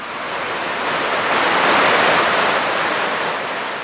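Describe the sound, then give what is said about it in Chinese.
Water waves crash in one broad, hissing whoosh that swells to a peak midway and then recedes. No other sound or voice is heard. “佢啱啱放低呢支金笛喺地下嘅时候，就听见有水声啦。”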